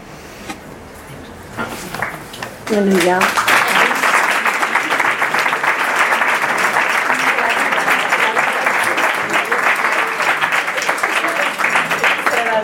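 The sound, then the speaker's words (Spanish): Audience applause at a live performance. It follows a brief stretch of voices and noise, then breaks in as dense, steady clapping that stays loud to the end. “este hombre, pero ya fue un aplauso ahí.”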